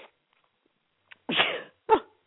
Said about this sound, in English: Proves it's a live show because otherwise I would cut out the sneeze.